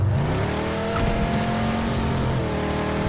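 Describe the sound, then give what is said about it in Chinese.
A car engine roars nonstop in the PUBG video game, a loud, dense drone that fills the whole clip. Its pitch shifts slightly, with no breaks and no audible talk over it. “我觉得这个车的噪音好大，我听不到人说话了。”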